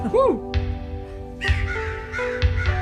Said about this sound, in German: Das ist The Crow. Das ist die Krähe.